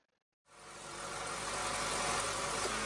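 A car engine with a fault that makes it sound bad starts after a brief silence and settles into a steady idle, a dense, even rumble that grows slightly louder as it runs.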